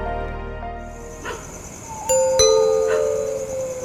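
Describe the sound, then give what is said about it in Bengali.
A doorbell rings in a suspenseful horror story scene, giving two bright chime tones in quick succession. The second chime is louder and rings on, over a soft, low, sustained background tone. “Calling বেলের শব্দে চমকে উঠল মাধবী”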